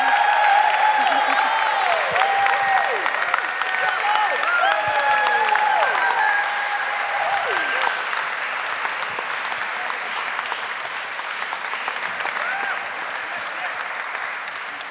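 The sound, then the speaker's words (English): An audience applauds to welcome speakers onto the stage, with dense, sustained clapping that carries through the whole stretch and tapers slightly toward the end. “So please put together your hands and invite them all up.”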